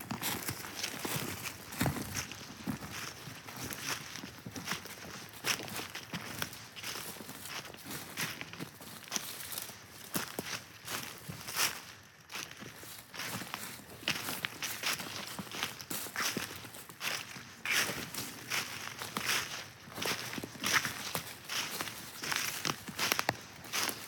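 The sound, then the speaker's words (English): Footsteps walking up a hill on a trail: many steady crunching steps in a continuous rhythm, fairly even in loudness, with no talk. “So we're going to head right up that hill following this trail. So follow me.”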